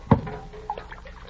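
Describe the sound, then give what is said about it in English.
Cool spring water is scooped from a bucket, with one sharp splash followed by a smaller slosh and a few soft trickling drips. “Sure. There's a bucket of cool spring water right there. Help yourself.”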